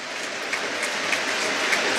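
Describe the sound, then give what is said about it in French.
A football crowd gives a minute of applause in tribute to a player who died 18 years earlier, a steady, even roll of clapping with no break or swell. “Et cette minute d'applaudissement qui prend fin à présent.”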